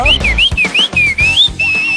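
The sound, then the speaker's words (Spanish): Whistled goldfinch song: one continuous high, clear whistle that glides up and down in pitch throughout, with soft low thumps beneath it. “Ese es un jilguerillo que les chifla.”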